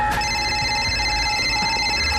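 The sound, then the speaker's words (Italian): A mobile phone rings with bright, steady electronic tones that hold at an even level for the whole moment, with no voices over it. “No, lo chiamano al cellulare.”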